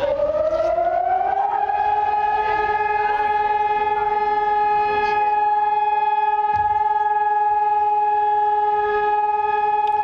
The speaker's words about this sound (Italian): Questo è il suono delle sirene che alle 9 di mattina, ora locale, ha letteralmente immobilizzato, fermato Israele